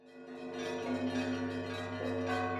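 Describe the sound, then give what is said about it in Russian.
Church bells ringing in the streets on a festive holiday, a quiet, sustained peal of layered, resonant tones that swell and hum gently throughout, with no voices. “Колокола гудят на улицах, толпа народа.”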